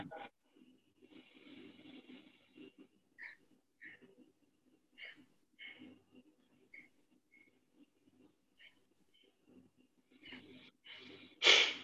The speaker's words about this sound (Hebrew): נשיפה ושאיפה ארוכה.